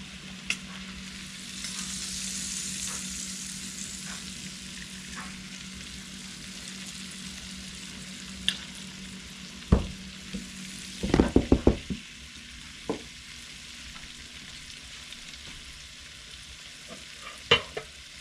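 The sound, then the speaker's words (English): Shrimp sizzle steadily in Cajun sauce in a tilted pan, a soft continuous frying hiss broken by a few sharp clicks and a brief cluster of clattering taps. “kind of tilt the pan around and let that Cajun concoction just kind of swallow up the shrimp as they kind of migrate towards the sides of the pan.”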